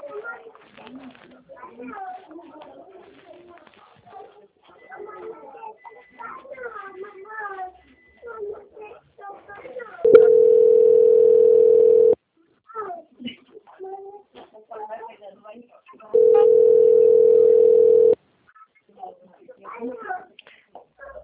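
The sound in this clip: A telephone ringing tone plays while a bank call is transferred: two long, steady, mid-pitched tones of about two seconds each, separated by stretches of people talking.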